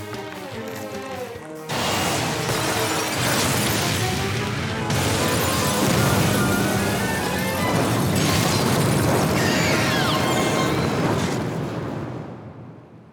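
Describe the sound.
A backdraft explosion in a burning building bursts in as a loud, dense roar. The blast stays heavy for about ten seconds, then tapers off at the end.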